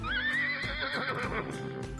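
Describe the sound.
A horse neighs in a high, quavering whinny that wavers and trails off into lower, rougher tones, clear and fairly loud throughout.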